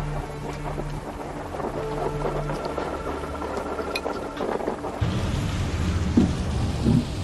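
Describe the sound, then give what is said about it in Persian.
Rain falls steadily with low, rolling thunder during rainy weather, a constant hiss over deep rumbling that grows louder and heavier in the last couple of seconds. “هوا بارونیه.”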